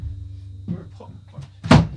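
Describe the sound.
A door is slammed shut with a single loud, heavy thud near the end, preceded by quiet talking and soft movement.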